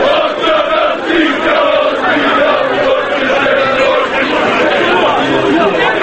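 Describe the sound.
Football fans chanting in the stands at a Partizan match, a dense, continuous roar of many voices that holds steady throughout.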